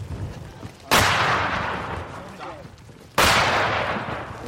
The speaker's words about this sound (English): We'll have to wait a little bit, so we've been now shelled by the mortar. As you can see, that was pretty damn close.